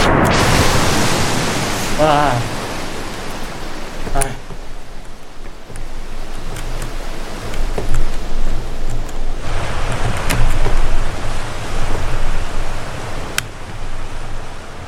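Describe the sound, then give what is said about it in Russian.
Rushing water in a video game scene with a waterfall: a dense, loud roar that holds steady throughout, broken by a few brief clicks and a short tonal blip. “Мне уже страшно, что ж будет? Мне уже страшно от этого звука воды.”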